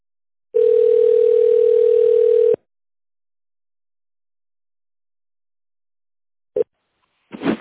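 A telephone line gives a single steady tone, lasting about two seconds, while a call is being transferred. Silence follows, then a few brief clicks near the end.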